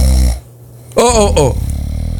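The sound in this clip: A person snores loudly, with a few rough, raspy snorts separated by short pauses and a low rattling breath trailing at the end.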